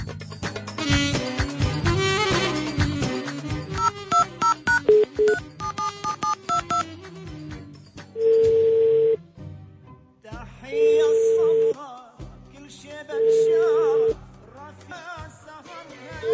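DTMF keypad tones from a telephone being dialed sound over dense music, followed by several long, steady ringback tones with pauses between them; the call is never answered.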